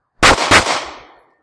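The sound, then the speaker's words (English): Two sharp pistol shots from an H&K VP9 ring out in quick succession at an outdoor range with a berm. Each loud crack is followed by a trailing echo that fades over about a second. “You may as well shoot it.”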